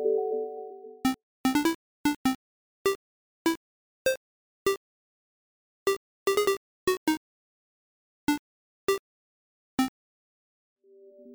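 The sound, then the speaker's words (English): A hidden 19-note chiptune melody from a Game Boy game plays as short, bright square-wave bleeps with uneven gaps, some clustered quickly and others spaced apart. A sustained tone comes before it and a brief one closes it. “If you haven't heard it yet, it sounds like this version from Super Mario Land 2 on the Game Boy.”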